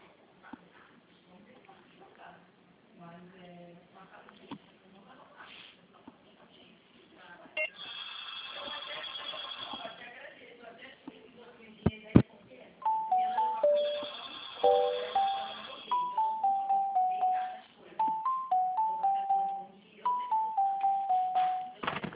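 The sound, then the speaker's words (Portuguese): Electronic melodic beeps play over a telephone line while a call is transferred to a company's HR department. Brief talk comes first, then a repeating tune of short descending tones. “Vou direcionar a ligação, senhor. Um momento.”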